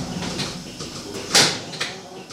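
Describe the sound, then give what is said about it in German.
An automatic gate opens in a cow milking parlour, with a sharp clack or rush midway through over a steady, hissing mechanical background and a few softer knocks. “Vorn öffnet sich das Automatikgatter, Q45 trottet zurück zu den anderen.”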